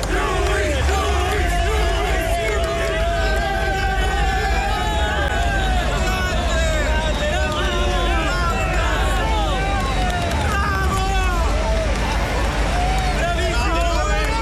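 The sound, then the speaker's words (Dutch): Italian fans cheering and chanting at the Barcelona motorcycle Grand Prix: a dense, loud crowd of many voices that stays steady and unbroken throughout, with shouts rising out of the babble. “Die sound en die gasten ook, hè. Italianen kunnen dan toch lekker losgaan”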